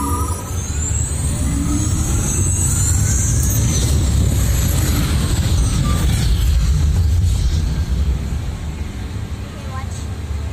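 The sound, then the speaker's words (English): Cars in a video game's off-road and extreme weather test give a steady, loud engine roar and rumble. Whining higher tones rise and fall above it before the sound eases slightly near the end. “Let's see how your designs hold up now. Commencing SimCar off-road and extreme weather sports.”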